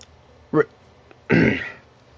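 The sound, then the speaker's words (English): Throat clearing, two rasping bursts: a short one, then a longer, louder one that fades out slowly. No other voice or speech. “I apologize for all the constant throat clearing.”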